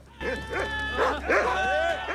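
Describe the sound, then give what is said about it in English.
Dogs bark and yip as they chase after tigers alongside men, a run of sharp, excited barks and whimpers with no clear pauses, moderately loud throughout. “Men and dogs chase after the tigers.”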